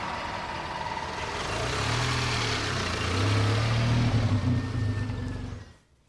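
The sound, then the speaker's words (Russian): A car engine runs and revs as people drive off. The low rumble swells and holds steady through the middle, then drops away sharply at the end. “Садятся в машину и уезжают.”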